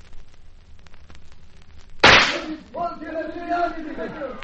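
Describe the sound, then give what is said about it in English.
A gunshot rings out during a radio-drama shootout at a floor show: one sharp, loud crack that stands alone before a voice starts speaking. “It is us you're shooting at.”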